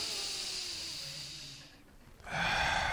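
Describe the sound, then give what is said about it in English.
A deep, calming breath drawn slowly in through the nose: a long airy hiss that gradually softens, pauses briefly, then swells back louder and rougher. “you take that nice calming breath. Well, the person with the long nose, the person who's long suffering, the person who doesn't get angry quickly, takes a nice long draw in.”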